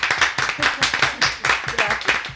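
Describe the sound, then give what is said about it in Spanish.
Applause from a literary club audience thanking a guest, with many brisk claps in a fairly regular rhythm and a steady, moderately loud level for the whole stretch. “Te damos un aplauso.”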